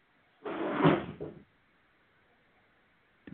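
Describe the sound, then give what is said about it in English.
A trash can knocked over: a rumbling clatter lasting about a second, then near silence, then a brief knock right at the end. “That was my wonderful fiance knocked over the trash can.”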